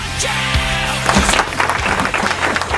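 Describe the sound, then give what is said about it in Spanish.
Applause for a guest breaks out about a second in: a dense, steady patter of many hands clapping that lasts to the end, over a low tonal hum that is there from the start. “Otro aplauso a Marce, qué bien.”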